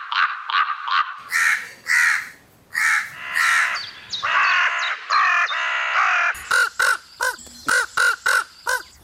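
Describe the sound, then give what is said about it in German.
Common raven calls: a series of harsh, croaking caws that vary in length and tone, ending in a quick run of short, clipped calls. No voices are heard. “Fachleute aus der Schweiz haben herausgefunden, dass es bei Kolkraben fast 80 verschiedene Laute oder Rufe gibt. Also 80 Rufe konnten sie übersetzen. Hör mal, ein paar Beispiele kann ich dir vorspielen.”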